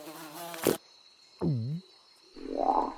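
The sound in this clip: Frog calls come as a few short, separate sounds: a brief noisy burst, then a bending, harmonic croak, then a rougher, buzzy call. They stand alone without talk over a faint, steady high hum.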